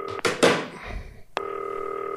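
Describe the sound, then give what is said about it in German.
A green telephone sounds a steady, even electronic tone that holds to the end, after a few dull clunks and knocks as things are cleared away beside it. “So, klingelt. Ich lege das grüne Telefon, nachdem ich hier abgeräumt habe, einfach mal daneben.”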